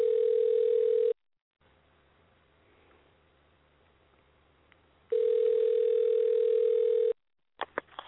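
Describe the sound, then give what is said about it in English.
A telephone dial tone hums as a steady, low, unbroken note, then cuts out to near silence with faint hiss. It returns for about two seconds and ends with a few short beeps. “Okay, I am dialing.”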